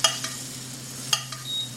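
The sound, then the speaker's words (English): Food sizzles in melted butter in a frying pan on an induction cooker while it is basted. A steady hiss runs throughout, broken by a few brief clicks and scrapes. “so I don't completely ruin it, I'm going to baste it a little bit. Get some stuff on top there.”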